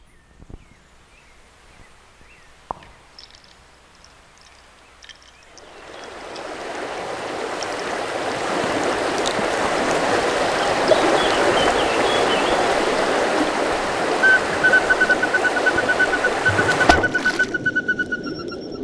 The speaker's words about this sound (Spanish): Es el instante en que la tercera ola cae y la cuarta está por llegar.